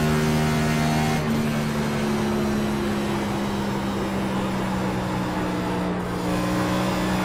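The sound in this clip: Race car engine drone from a NASCAR video game as the car laps a track, a steady, sustained hum with a constant pitch and no clear shifts, running alone with no talking.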